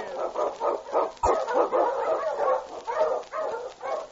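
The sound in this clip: Husky sled dogs bark and yip in a rapid, continuous run of loud, mid-pitched barks that overlap one another, with no pause through the whole stretch.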